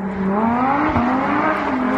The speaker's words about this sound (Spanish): De los trenes hablamos de coches, aunque en este caso a toda velocidad y fuera de la ley.